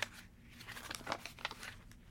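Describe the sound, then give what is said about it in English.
Crinkly rustling of a paper note, written in sloppy cursive and held by one piece of tape, as it is pulled off a fireplace. A few soft, scattered crackles over a faint background, with no voices. “The note, written in sloppy cursive, clung to the fireplace by one piece of tape. I pulled it down.”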